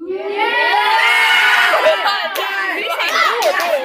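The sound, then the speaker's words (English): A studio audience cheers and shouts, a loud, continuous mix of many excited voices that stays dense throughout, with individual shouts rising above the crowd. “We got a mix of yays and boos as usual, but most of them were yays. The yays were the loudest.”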